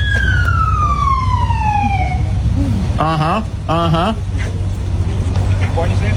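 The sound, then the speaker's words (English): Police car siren during an arrest in California: a long, loud falling wail, then two bursts of rapid warbling yelp, over a steady low engine rumble. “this is the sound of an arrest. Whoop, whoop. That's the sound of the police.”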